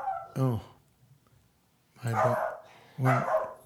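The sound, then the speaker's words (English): A dog barks at the door, trying to get through it as a man walks his dog past outside: three loud, harsh barks, the first alone and the last two closer together. “my dog cannot stand any other beast of burden coming around me. He will attack. He's trying to go through the door. He senses a man walking his dog in front of”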